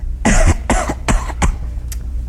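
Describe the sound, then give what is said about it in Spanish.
A man coughs hard, forcing the coughs to sound like bronchitis. Five harsh, rasping coughs come in quick succession. The first is the longest and loudest, and the last is brief and faint. No one talks. “¿Tengo que toser más duro? Claro, chico. Hombre, para que parezca una bronquita, mira a ver.”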